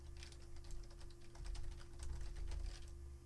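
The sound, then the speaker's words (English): Rapid typing on a computer keyboard: many quick, light keystrokes in a steady, uneven patter that runs throughout. The sound is faint and there is no talking. “Type this in. Ready?”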